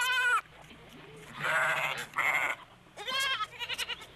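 Sheep and goats bleat as they run toward their young lambs and kids, a few loud, harmonic cries in turn with brief gaps, the last one quavering in rapid pulses.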